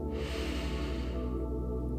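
A deep breath is drawn in as part of a guided meditation, a soft, airy rush lasting just over a second over steady, sustained background music.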